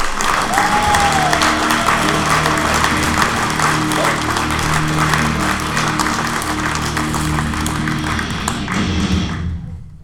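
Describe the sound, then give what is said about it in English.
An audience applauds a comedian at a comedy show with a dense, steady roar of clapping that holds for around ten seconds before fading out at the end. “Give it up for him!”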